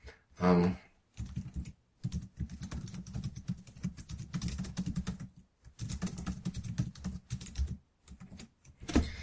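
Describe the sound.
Typing on a computer keyboard comes in quick bursts of soft clicks separated by short pauses, fairly faint, with no talk over it.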